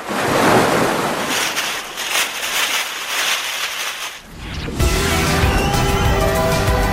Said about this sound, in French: On se met en ambiance plage